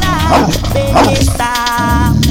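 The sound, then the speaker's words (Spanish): Dog barking used as a sound effect in a mixtape: a few sharp, yelping barks ring out over a loud, continuous music beat. “El perrito.”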